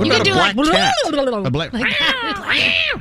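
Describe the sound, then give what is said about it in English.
A black cat meowing, a few loud, drawn-out wailing meows that waver up and down in pitch, one after another with brief gaps. “I'll play the black cat.”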